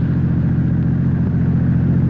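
A car engine hums steadily as the car drives along near midnight, a continuous low drone with even loudness throughout and no clear changes in pitch.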